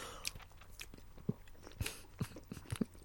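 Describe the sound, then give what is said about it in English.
Faint chewing of a whiskey and orange flavoured snack, with many soft, irregular crunchy bites and wet mouth sounds. “Close your mouth while you're eating. I don't want to see it.”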